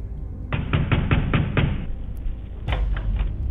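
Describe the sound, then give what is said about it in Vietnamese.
Pounding on a wooden door: a rapid run of about six heavy blows, a short pause, then a second burst of several more thuds, loud and sharp against a quiet background. “Nó không gõ nữa mà nó đập cửa.”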